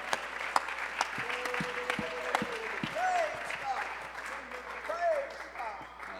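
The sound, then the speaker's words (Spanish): Applause from an audience during a church service, a fairly soft, continuous clatter of clapping with voices calling out over it and a few sharper claps standing out. “Dale un fuerte aplauso.”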